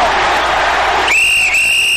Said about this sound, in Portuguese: E todas as vezes que você ouve o apito, é porque chegou a hora dele.